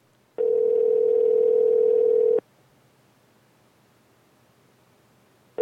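A telephone dial tone during an outgoing call: a steady mid-pitched tone sounds alone for about two seconds, then silence, and another tone starts at the very end.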